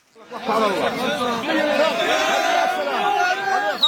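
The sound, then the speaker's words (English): Families in Gaza cheer as they welcome relatives released from Israeli prison: many overlapping excited voices shout and call out at once, rising quickly from quiet into a loud, sustained clamor. “This is the sound of cheering in Gaza. Families welcoming relatives released from Israeli prison.”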